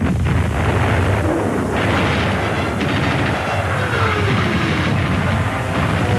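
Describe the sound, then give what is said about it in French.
German artillery batteries open fire before Stalingrad against a Soviet attack, a dense, continuous roaring rumble with no clearly separate blasts, steady and loud throughout. “Devant Stalingrad, les batteries allemandes ouvrent le feu dans le but d'enrayer une violente attaque soviétique.”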